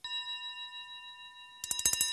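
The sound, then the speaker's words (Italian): Telephone ringing at night: a steady electronic tone with bright harmonics holds for about a second and a half, then gives way to a burst of sharp, rapid rattling clicks. “Si sveglia il telefono, in piena notte. La zia corre a rispondere, si sente che è preoccupata.”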